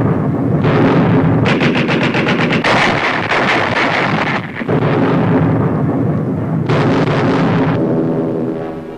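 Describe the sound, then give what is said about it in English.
Rapid, loud bursts of anti-aircraft pom-pom gunfire from an Arctic convoy ship off northern Norway, firing at attacking bombers. Sustained rattling automatic fire with heavy booming blasts continues almost without a break, pausing only briefly. “Pom-poms, anti-aircraft guns blaze into action.”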